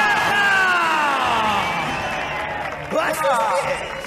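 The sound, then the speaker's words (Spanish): Supporters in red cheer as a crowd, with loud, continuous whooping and shouting from many voices that swells again near the end. “Hacen más ruido las del rojo que las del blanco. ¡Hay ganas, sí, señor! ¡Hay ganas de ver a Consuelo! Sí, se les escucha.”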